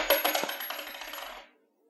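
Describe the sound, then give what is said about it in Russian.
A coin dropped as a donation clatters and rattles in quick, bright bounces that crowd closer together and fade, stopping after about a second and a half and leaving silence. “Вот вам монета... Я делаю первый взнос.”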